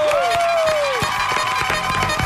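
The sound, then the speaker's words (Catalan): Cheering and scattered clapping from a secondary-school class applauding a guest, with a sliding whistle-like tone early on and sharp claps over a steady background of voices. “Aplaudeixen des de l'Hospitalet Acadèmia Cultura, que és un institut, eh?”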